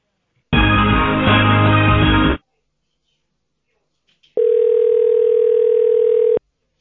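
Telephone line tones play while a call is being transferred: a long buzzy tone, about two seconds of silence, then a second steady, mid-pitched tone of similar length. Both are loud and clean.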